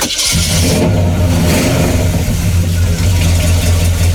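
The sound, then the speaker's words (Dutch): A 1968 Chevrolet Impala custom sport coupé engine starting and running, a loud, steady low rumble that continues unbroken throughout. “Een Chevrolet Impala, 1968, custom sportcoupé. Deze auto heb ik nu ongeveer 4 jaar. Tegenwoordig is het allemaal één pot nat. En dit is heel wat anders. Je wordt er al vrolijk van als hij start.”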